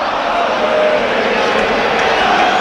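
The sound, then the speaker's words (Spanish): Football stadium crowd erupting in protest at the referee, a loud, continuous roar of many voices that stays level without a break. “El público rompe ya, cansado de todo.”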